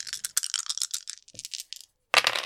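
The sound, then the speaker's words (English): Three dice rolled during a tabletop roleplaying game, a run of quick, rattling clicks and clatters, a brief pause, then one last loud burst of clatter. “So I will say, yeah, I'll give you 3 dice for this. So roll me naughty. Roll me naughties, roll.”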